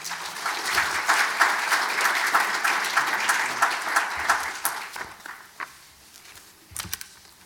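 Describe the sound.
An audience applauds to welcome a lecturer to a natural history talk, dense steady clapping for about four seconds that then thins out into scattered, separate claps.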